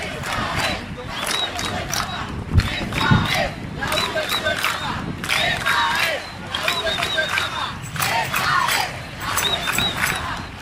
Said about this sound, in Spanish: Así responde la juventud mundial hoy a la homilía de bienvenida a esta Jornada Mundial de la Juventud del arzobispo de Panamá, Monseñor José Domingo Ulloa.